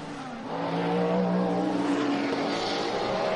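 Race car engines roar on a circuit during a close battle for the lead, a loud sustained mechanical howl with layered tones that swells in after a quieter first half-second and then holds steady.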